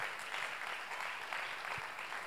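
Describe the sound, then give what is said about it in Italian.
Applause from the audience at a Sunday gathering, honouring women who attended a retreat: a steady, dense patter of many hands clapping, continuous and fairly soft throughout. “Vogliamo fare un applauso a loro per quello che è stata la loro scelta.”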